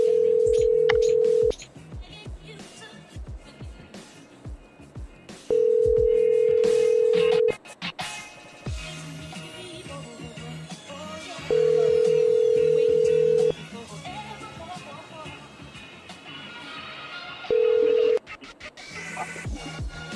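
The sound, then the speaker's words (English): Telephone ringing-out tones on an outgoing call: four steady, low buzzing tones of about two seconds each, the last cut short, separated by pauses with fainter background sound in between. “Oh, it was dialing.”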